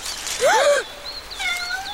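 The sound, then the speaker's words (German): A cat meows once, loud and drawn out, with a bending, wavering pitch, followed by thinner, softer high tones. “Nur eine Katze. Mann, hat die mich erschreckt.”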